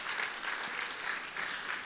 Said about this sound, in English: And a hand clap to our tech team back there.